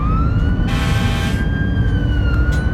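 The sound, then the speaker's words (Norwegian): A fire engine's siren wails continuously as the truck drives with sirens on toward the sea. The loud tone shifts slowly in pitch over a steady, heavy rumble. “hopper inn i brannbilen. Med fulle sirener kjører de mot sjøen.”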